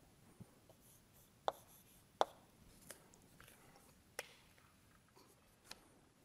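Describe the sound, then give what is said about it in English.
Notes being written by hand: faint, sparse pen scratches and light taps spaced irregularly, very quiet and with no talk. “Let me write down this.”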